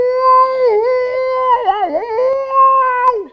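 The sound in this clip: A human voice imitates a whale call: a long, wavering, hum-like moan that slides and wobbles in pitch through the middle, then steadies before trailing off.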